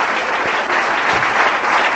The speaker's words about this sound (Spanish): Démosle un aplauso.